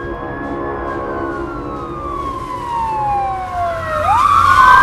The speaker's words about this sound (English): He watches a police car pass and gulps.